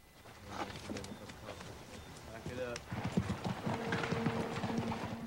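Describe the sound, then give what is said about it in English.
Hooves of a mounted Union cavalry troop's horses clip-clop past in a Civil War camp, a steady stream of many overlapping hoof strikes under voices. “Hutton leads his men past another mounted Yankee troop escorting Confederate prisoners in chains.”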